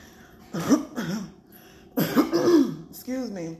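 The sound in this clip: Coughing and throat clearing from one person, a few harsh, rough bursts spaced across the moment, fairly loud against a quiet background.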